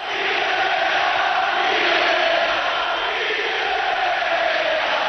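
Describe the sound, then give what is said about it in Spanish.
Dense, steady crowd roar from Real Betis football fans at the Benito Villamarín stadium, chanting against their coach. The noise holds loud and continuous for the whole span, with no distinct chant rhythm standing out. “Ha habido este momento en el que ha cantado el público, Quique, vete ya, en el Benito Villamarín.”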